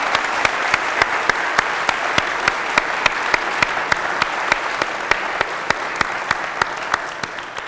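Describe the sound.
An audience applauds to welcome a game developer guest onto the stage. The dense, steady wash of clapping is loud and even, with a regular run of sharper individual claps standing out across its length.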